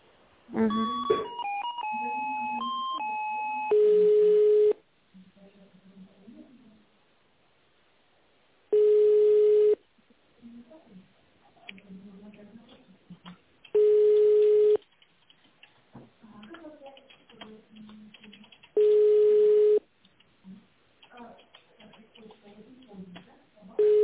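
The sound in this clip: A telephone ringback tone sounds while a call is being connected. Brief electronic tones open, then a steady mid-pitched beep repeats five times, about a second each at even intervals, with faint murmuring between the beeps.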